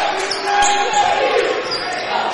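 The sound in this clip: A basketball is dribbled on court during a game, a few dull thuds of the ball nearly buried under steady crowd noise and chatter.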